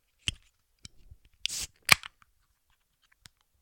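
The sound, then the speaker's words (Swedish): Opening a strong beer: a few sharp clicks, then a short hissing burst and a crisp snap, with a faint tap near the end and no talking. “Var det, ja, tog du en öl eller? Ja, jag tog en öl. Jag tog en stark öl.”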